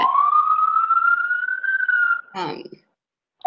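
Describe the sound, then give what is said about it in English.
A police siren wail: one sustained tone that rises gradually in pitch for about two seconds, then cuts into a short rough noisy burst, followed by silence and a brief return of the tone at the end. “I don't know if you can hear the siren”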